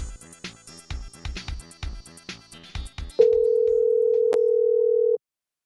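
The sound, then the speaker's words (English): A phone call to a burger restaurant being dialed: a quick run of short keypad beeps, then a steady, continuous telephone tone that holds for about two seconds and stops abruptly. “Well, it's getting dialed.”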